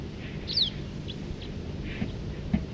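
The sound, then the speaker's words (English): A siskin gives one short, sharp chirp, followed by a few fainter calls over a steady low background hiss. “There's a bird here. Getting loud calls.”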